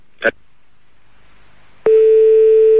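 A steady telephone line tone, heard on a switchboard line with a fault. A brief short burst of sound comes first, then silence, then the loud, unbroken mid-pitched tone starts abruptly and holds to the end.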